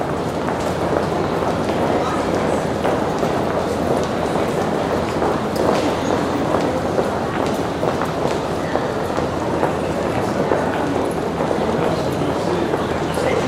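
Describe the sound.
Ambience inside a train station hall in Brussels' business district, recorded with a Rode NT4 stereo XY microphone: a steady, dense wash of crowd noise with scattered footsteps, clicks and indistinct voices throughout.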